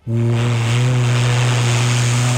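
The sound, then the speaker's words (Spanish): A person imitates a ship's whistle by placing a finger in the mouth, producing a loud, steady, low hum-like tone held unbroken for a couple of seconds. “mi abuelito me enseñó a hacer el pito de un barco así. Mira, tú te pones el dedo así en la boca y dices”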